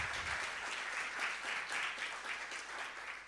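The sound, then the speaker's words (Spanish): Applause from a church audience during a Sunday sermon: a steady, dense patter of many hands clapping, fairly faint and continuous throughout, with no talk over it. “Dar un aplauso al Señor”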